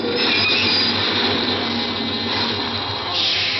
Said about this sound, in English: The subway stopped. More people got on.